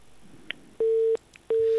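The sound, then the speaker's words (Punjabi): A telephone busy tone after a call is cut off: two steady, mid-pitched beeps of equal length, separated by a short gap, over a faint hiss. “ਲਓ ਜਨਾਬ, ਪਹਿਲੀ ਕਾਲ ਗਈ ਕੱਟੀ, ਪਤਾ ਨਹੀਂ ਕਿਸ ਵਜ੍ਹਾ ਤੋਂ ਕੱਟੀ ਗਈ।”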